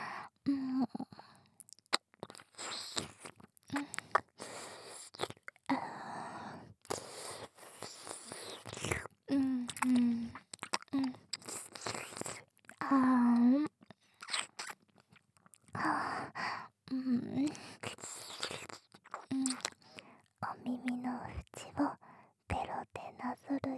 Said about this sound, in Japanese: お耳の中もいっぱい舐めちゃうからね。